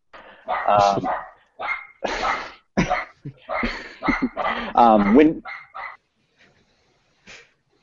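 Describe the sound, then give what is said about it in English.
A dog barks in a rapid, irregular series of sharp, loud bursts, a few of them clipped into yips, then breaks off into near silence with one faint final sound. “The dog's going ham right now.”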